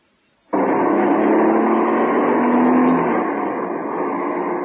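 A car being driven fast gives a loud, steady engine roar that cuts in abruptly after a short silence. The even droning hum holds, then eases slightly near the end.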